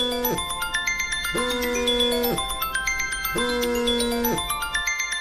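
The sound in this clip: A phone ringing with an incoming call, a bright electronic ringtone melody. The same phrase repeats several times in a steady loop with no talk.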